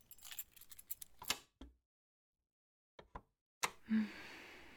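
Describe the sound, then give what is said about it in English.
A cellar door being opened: a metallic jangle and rattle, a sharp knock, then near-silence broken by a few short clunks, ending in a louder creaking rush. “I'm gonna open the cellar.”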